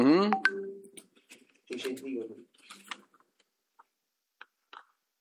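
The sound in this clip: Telephone dialing tones sound as a brief run of stepped electronic beeps at the start, followed by voices and a few faint scattered clicks.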